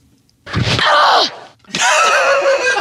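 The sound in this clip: Two long, loud vocal moans from a tennis player during a match, separated by a short pause; the first ends with a falling pitch.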